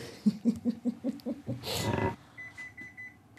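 An oven timer beeps for baking biscuits: one steady, high-pitched tone near the end. Before it come a few rhythmic low thumps and a short rushing burst.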